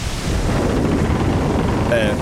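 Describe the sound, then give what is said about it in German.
Stormy wind at sea aboard a pirate ship: a loud, steady roaring rush of broad noise that holds without a break throughout. “Und als wir da gefilmt haben, da gab es einen krassen Sturm. Wirklich der krasseste Sturm der Welt.”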